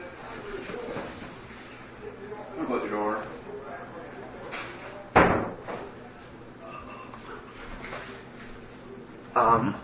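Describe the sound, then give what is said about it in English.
A door is closed with one sharp, loud thud midway, standing out against ongoing talk and a later brief knock-like burst. “Close the door.”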